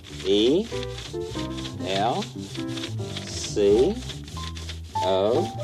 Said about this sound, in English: put the paper on top of it and then rub over the welcome